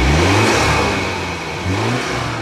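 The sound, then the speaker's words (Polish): A police BMW 3 Series car with a 252 hp engine, automatic gearbox and four-wheel drive revs with a loud, continuous mid-pitched roar that rises and dips, with no talk. “Przedstawiam tutaj Państwu pojazd marki BMW serii 3 o mocy 252 koni mechanicznych w automacie z napędem 4x4.”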